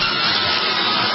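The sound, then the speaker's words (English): High-pitched electric saw running in a loud, continuous whine with a harsh, hissing edge, unbroken and steady from start to finish. “This is the sound of a high-pitched electric saw.”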